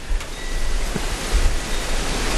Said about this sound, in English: Stopping here, it's the wind's blowing me around.